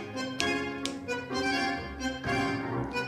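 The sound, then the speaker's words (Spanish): Finger snaps mark the pulse over tango-style instrumental music: a few sharp, crisp clicks cut through the dense, continuous ensemble sound. “el pulso está acá, ¿no? Donde yo estoy chasqueando mis dedos.”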